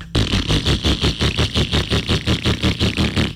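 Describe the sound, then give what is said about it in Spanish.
A motorcycle engine runs roughly: a loud, lumpy idle with a rapid, regular pulsing beat throughout and no talk. “si la moto suena así, la moto que tú tienes suena así de...”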